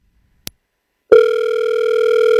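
A sharp telephone click, then a loud, steady electronic line tone that holds unbroken to the end as a call begins. No voices.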